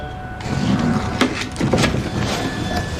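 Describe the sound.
Rustling and handling noises as a large, heavy package is opened at home, with a few duller bumps standing out above a steady, broad shuffling.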